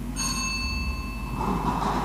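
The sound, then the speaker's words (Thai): The circular drawing wheel of a Thai lottery draw is spun for the first time, giving off a sustained metallic ringing over a steady rumbling whir that grows slightly busier toward the end. “ขอเชิญพนักงานออกเลขรางวัลที่ประจำอยู่ในตู้หมายเลข1พร้อมด้วยคณะกรรมการได้ออกมาประจำหน้าที่อยู่อุปกรณ์วงกลมพนักงานออกเลขรางวัลจะทำการหมุนอุปกรณ์วงกลมเป็นครั้งที่1”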